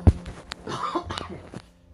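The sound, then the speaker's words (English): A single sharp cough from someone sick with the flu, a loud burst at the start followed by a few softer throat sounds and breathy noises, fading to near quiet by the end. “Excuse me, I'm going to cough.”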